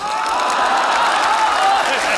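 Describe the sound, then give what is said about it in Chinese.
A group claps in steady applause, a dense, even patter of hands that keeps up for a couple of seconds, with a faint murmur of voices mixed in. “来就来呗，还鼓什么掌？地垫不用鼓，别鼓。”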